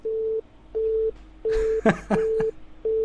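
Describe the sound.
A telephone busy signal sounds as a low, steady tone in short beeps with regular gaps between them. A brief burst of voice breaks in over the middle of the sequence.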